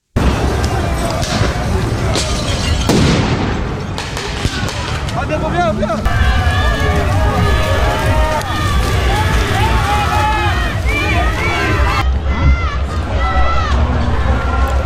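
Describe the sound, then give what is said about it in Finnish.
Loud crowd clamor from a street clash between anti-G7 protesters and police in Geneva: raised, shouting voices, running and constant rough noise fill the whole stretch. “Protestoijat heittelivät poliiseja pulloilla, kivillä ja ilotulitteilla. Poliisi vastasi tilanteeseen kyynelkaasulla ja vesitykeillä.”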